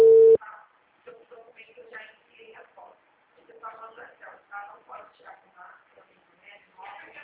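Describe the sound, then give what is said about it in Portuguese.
A short, steady telephone busy tone after a dropped call sounds once at the start, loud and single-pitched, then gives way to quieter talking that continues to the end. “a ligação caiu”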